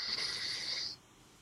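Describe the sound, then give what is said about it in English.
An airy nasal breath from an alternate nostril breathing exercise, drawn in or let out through one nostril at a time, forms a single steady hiss lasting about a second before it drops to near silence. “it's literally just doing the alternate nostril breathing. So you start with the left, so you're breathing in, then we switch, and then exhale, then back again in,”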